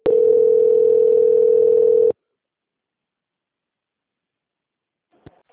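A telephone call transfer tone: a steady, single-pitched electronic tone lasting about two seconds that cuts off abruptly, followed by silence and a faint click.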